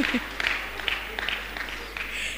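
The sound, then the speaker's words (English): An audience applauding, with dense, steady clapping and a few louder bursts throughout, fairly faint overall. “I've been married for the past 26 years. So better clap for me.”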